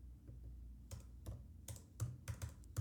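Typing on a computer keyboard: many quiet, irregular key clicks in uneven bursts over a faint steady low hum.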